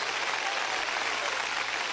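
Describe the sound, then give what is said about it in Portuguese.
An audience clapping hands in praise at a church service, a steady, soft, even patter of many hands with no pauses. “Quem está feliz pode louvar o Senhor com as palmas.”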